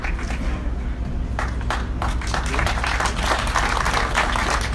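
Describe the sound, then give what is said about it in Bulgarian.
Audience applause: dense clapping from many hands continues steadily at moderate loudness for the whole stretch. “Аплодисменти за господин Иван Дарков.”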